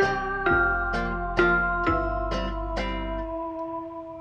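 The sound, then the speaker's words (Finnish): A short chiming jingle of six bright, bell-like struck notes played at an even pace, each ringing on until the final tones fade away. “Jingleä kehiin.”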